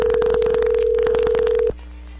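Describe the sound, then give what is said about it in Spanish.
A steady mid-pitched telephone tone sounds as a call is placed. Rapid, regular clicks run over it for about 1.7 seconds, then it cuts off abruptly, leaving a quieter low background. “ahí se está marcando”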